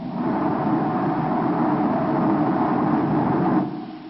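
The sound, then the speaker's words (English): A spaceship's two rocket motors fire in a science-fiction drama, a dense, steady roaring rumble that holds evenly for several seconds and then drops away sharply near the end. “Turn complete, 180 degrees. Fire both motors. Now!”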